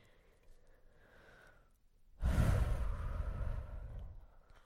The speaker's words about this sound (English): And I just took that deep breath because that was a really hard thing for me to hear.